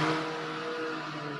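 Cars drag racing in an unpaved parking lot give off a steady, droning engine roar with a sustained hum, fairly loud and continuous through the short clip, with no talk.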